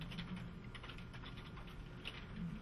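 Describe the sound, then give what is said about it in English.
Faint keyboard typing while an email is quickly written in Outlook on a computer, a soft continuous run of light key clicks over a quiet background hiss. “Let me switch over here to Outlook and just send an email message that I will type up quickly, and I'll send it to...”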